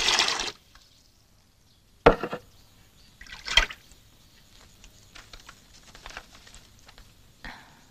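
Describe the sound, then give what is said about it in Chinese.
Water splashes for washing hands, with a few short bursts and light pattering and dripping in between. “你快去弄点水，我洗洗手，别把表格弄脏了。”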